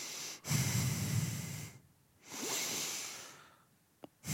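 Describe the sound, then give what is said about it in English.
Heavy breathing into a microphone: two long, breathy rushes of air, each lasting over a second and separated by a short pause, then a brief click near the end. “Garrison Keillor, the key to it is you got to start by just breathing into the microphone.”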